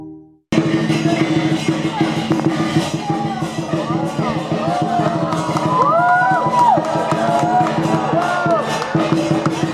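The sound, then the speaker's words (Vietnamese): Crowd noise at a Lunar New Year fair in Richmond, Melbourne: a loud, steady wash of many overlapping voices with occasional whoops, continuous from start to finish. “Xin chào quý vị và Xuân Ngọc có mặt tại hội chợ Tết ở Richmond, thành phố Melbourne, một trong những hội chợ Tết được các hội thương gia tổ chức lâu nhất tại thành phố này. Rất là đông bà con đồng hương đã tới đây”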